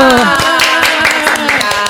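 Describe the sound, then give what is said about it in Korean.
A group claps quickly to welcome a guest. Many sharp claps come close together in a brisk rhythm, with voices heard over them. “야, 박수!”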